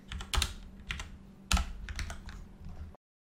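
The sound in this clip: Quick keystrokes on a computer keyboard while code is typed, with clusters of sharp clicks in uneven bursts and two louder flurries. The typing stops abruptly near the end, followed by silence.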